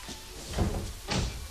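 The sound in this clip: A door being tried and opened: two brief, muffled clunks of the handle and latch about half a second apart, fairly quiet, with no talking.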